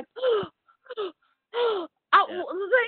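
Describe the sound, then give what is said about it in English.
A person gasps and hyperventilates in a scene from the film X-Men: Apocalypse, giving a few strained, voiced, moaning breaths separated by short silences, with the last ones crowding together more quickly. “Stop gasping. Do something. Stop hyperventilating.”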